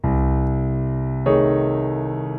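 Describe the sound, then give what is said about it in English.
A C diminished voicing chord with C in the bass is played on piano: one sustained chord rings, then a second chord is struck just over a second later and slowly fades. “Now if I put C down in the bass, so we get a real sampling of this diminished sound, this diminished voicing, it's going to sound like this.”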